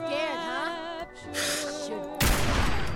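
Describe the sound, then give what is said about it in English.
Video game gunfire from a .50 cal weapon: softer tonal sounds early on give way to a loud, harsh burst of shots that fills the final stretch. “Nice. I shot him in the head.”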